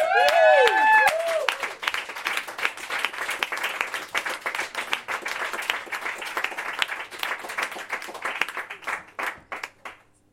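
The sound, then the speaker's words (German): Audience applause at an open-mic event: a brief voice at the start, then dense clapping that stays strong for several seconds before thinning into scattered claps and fading toward the end. “Yay, Applaus.”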